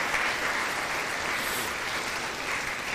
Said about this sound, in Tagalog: Pwede bang palakpakan natin ang Panginoong Jesus sa kanyang kabutihan?